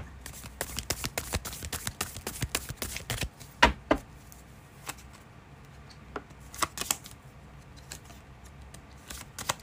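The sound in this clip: Tarot cards stuck together from humidity are shuffled, a rapid flurry of crisp snapping riffles followed by sparser, scattered clicks and flicks of cards.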